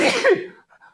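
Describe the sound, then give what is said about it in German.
A person sneezes once, a loud, sharp burst of breath that dies away within about half a second, followed by a faint, brief after-sound. “ich muss niesen”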